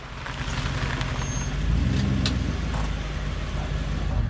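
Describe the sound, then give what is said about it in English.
A car pulls up at a house at night, its low, steady engine rumble swelling slightly partway through and then carrying on evenly, with no talk. “He pulls up at the home of Raymond Price.”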